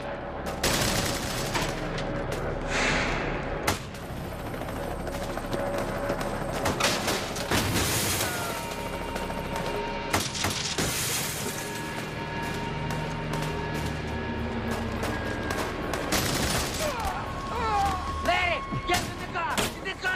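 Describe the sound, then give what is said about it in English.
Gunfire in a movie shootout in North Hollywood, with semi-automatic weapons against police. Many sharp shots crack in rapid, irregular bursts and volleys for the whole stretch, with people talking amid the firing. “They're still shooting at us.”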